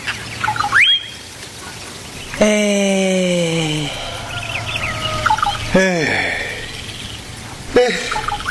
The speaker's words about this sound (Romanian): se audă cum cântă pitpalacile